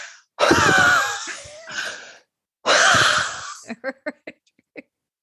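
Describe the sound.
A voice imitates heavy breathing with two long, raspy, wheezing breaths, followed by a few short, sharp puffs.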